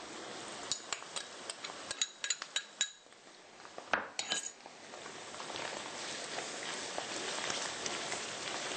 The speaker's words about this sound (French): Alors, pendant que notre tofu se fait rôtir un peu, nous allons ajouter le gingembre et l'ail.